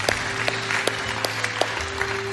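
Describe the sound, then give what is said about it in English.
A church audience applauds to welcome new members, a steady wash of many hands clapping with a few sharper, louder claps standing out through the whole stretch. “Hey, Bridge family, can we put our hands together and welcome some people into the family of God today?”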